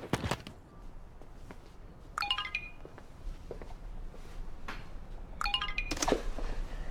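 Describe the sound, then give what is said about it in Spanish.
A computer notification chime sounds twice during a scene from a teen TV drama, each time as a short, bright, multi-tone jingle over soft background noise. “Daisy, te suena el compu.”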